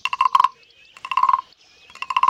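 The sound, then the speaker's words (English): Rasping, croak-like scrapes from a wooden frog-shaped percussion instrument as a ridged stick is drawn along its back. Three fairly loud strokes of rapid ratcheting clicks are separated by short pauses, with no voices. “It's shaped like a frog. It's made of wood. It's got like a little stick that's like a beater, but it's got ridges and you're on the back of the frog.”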